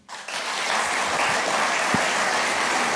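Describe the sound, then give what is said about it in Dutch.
A large audience applauds during a political speech. The clapping swells quickly from near silence into a sustained, dense roar that holds steady to the end. “Ja, een groot applaus bij deze en ook bij andere uitspraken van Timmermans.”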